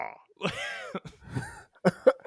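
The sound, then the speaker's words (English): A voice imitates an armored robot suit groaning as it takes punches: a drawn-out, strained harmonic groan, followed by several short gruff bursts. “Why does the suit groan when he's getting beat up? I always like when when he gets punched, like the suit goes.”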